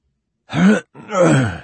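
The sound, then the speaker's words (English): A man clears his throat in two short, rough bursts separated by a brief pause. The second burst is longer and trails off, with silence before and around it. “He cleared his throat and tried again.”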